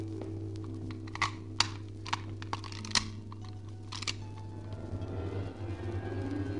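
A red-gold key is tried in a lock, giving a series of small, sharp metallic clicks and rattles spaced irregularly over a steady low hum.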